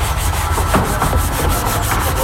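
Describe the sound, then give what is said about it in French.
The wooden edges of photo frames are sanded by hand in a carpentry workshop: loud, continuous rubbing with quick, even back-and-forth strokes. “On leur monte à faire des cadres pour mettre des photos dedans. Donc ils doivent poncer des champs et les assembler par la suite. Je leur explique comment poncer les champs des cadres,”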